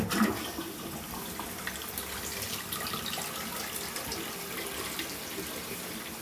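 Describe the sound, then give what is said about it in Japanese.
An automatic toilet flushing by itself: a steady, loud rush of water that runs through the whole clip, slightly stronger at the start. “多分勝手に流れます、すいません。”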